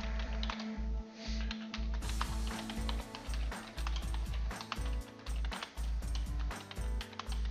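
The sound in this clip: Rapid typing on a computer keyboard as a description is entered into a dialog box, many quick clicking keystrokes in an uneven, busy rhythm, steady and moderately loud with no voices.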